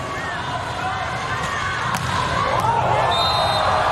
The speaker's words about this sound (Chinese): Ace 球。发球直接得分。